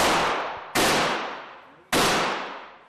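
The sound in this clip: Three sharp, loud gunshots from a first-time shooter at a concealed weapons permit class on Florida's Gulf Coast, each a sudden blast trailing off in a long decaying ring before the next.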